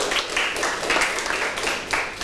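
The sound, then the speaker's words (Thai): Students in a math classroom clap for a classmate who gave a correct answer, with moderately loud, uneven clapping that swells and dips in small bursts. “ถูกต้องนะครับปรบมือให้เพื่อนหน่อยครับ”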